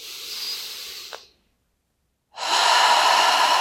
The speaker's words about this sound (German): Und gleich noch einmal, atme noch einmal ein, ganz tief.